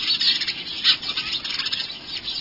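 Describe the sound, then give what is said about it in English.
Sparrows chatter from inside a bush where a flock has settled, a dense, continuous stream of high, overlapping chirps and tweets that flickers in loudness, with no voices. “Sometimes a bush they've settled in seems to be alive with their chatter, even though you can't see a single bird.”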